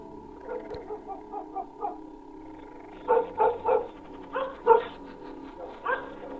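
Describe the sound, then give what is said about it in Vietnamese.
A dog barks frantically inside a house: many short, yappy barks over a steady low hum, softer at first and then bursting out louder in quick clusters. “Ở trong nhà, con Vàng vầu nó lại thỏ cái mõm ra mà sủa nhặng cả lên.”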